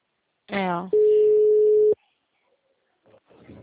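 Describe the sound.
A single telephone ringing tone on an outgoing call: a steady, mid-pitched beep of about one second. A brief voice comes before it, then a pause, then faint talk.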